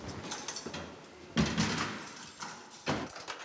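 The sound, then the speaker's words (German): A prison door being locked, with two sharp metallic clanks of the lock and door, each followed by fainter rattling, amid low background shuffling. “Können Sie abschließen, bitte? Mach ich.”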